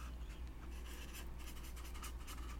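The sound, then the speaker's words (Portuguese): Handwriting as Bible verse references are noted down: faint, soft scratching strokes of a pen, repeated quickly and evenly throughout. “Deixa eu escrever aqui para depois na hora do print tá tudo certinho. Deixa eu colocar aqui.”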